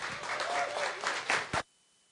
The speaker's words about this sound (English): So let's welcome Joel up here right now.